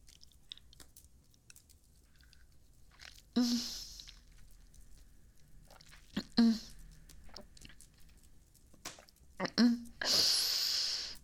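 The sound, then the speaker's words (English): Someone chewing and biting while eating a meal. Quiet, wet mouth sounds recur through the stretch, broken by a few louder, voiced bursts. “I thank you for this meal of which I'm about to partake.”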